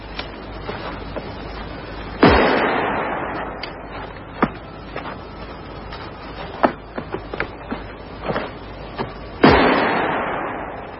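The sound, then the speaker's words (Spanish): Firing-squad gunfire in a radio drama, shooting thirteen prisoners in the snow. Two loud volleys ring out with long decaying tails, and scattered sharper, lighter cracks fall between them. “¡Fuego! Los cuerpos de los trece prisioneros caen sobre la nieve.”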